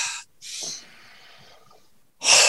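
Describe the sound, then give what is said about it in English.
A big deep breath taken during a workshop exercise: several loud, airy breath rushes, with a longer, softer breathy stretch between them. “Right, back up. Nice big deep breath.”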